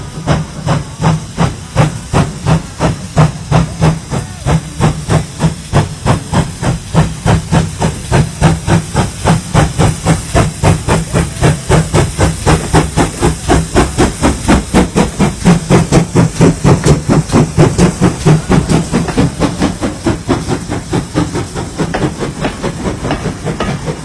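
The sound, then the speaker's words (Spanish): Steam train chuffing at the opening of a song: a long run of rapid, regular, loud rhythmic puffs over a constant hiss of steam, with no talking. “Y justo tenemos una canción que comienza como un tren.”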